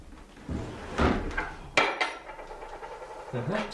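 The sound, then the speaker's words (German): A jammed drawer being tugged open: a few sharp knocks and scraping jolts, fairly faint, with a quieter rub between them. “Hier ist eine Schublade geklemmt. Warten Sie, ich helfe Ihnen.”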